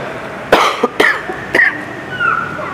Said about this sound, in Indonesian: Mohon maaf, saya batuk